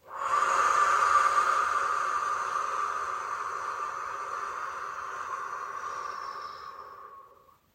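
One long, airy breath during a morning meditation, a soft steady hiss that holds for about seven seconds before tapering off, heard alone.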